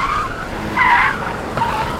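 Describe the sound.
Tires of a car squeal as it drifts and skids through a curve, the high screech coming in a few surges over steady road and engine noise, with no voices.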